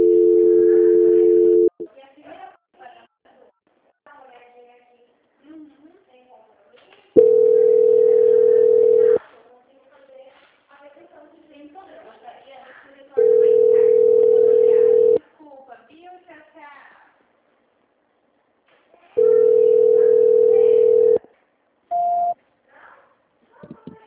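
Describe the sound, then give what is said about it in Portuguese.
Telephone call transfer tone: four long, steady electronic tones spaced about six seconds apart, followed by one short tone, with quieter sounds between them. “Que eu vou transferir a sua ligação. Transferência.”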